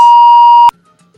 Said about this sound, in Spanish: hay un problema o se cayó la llamada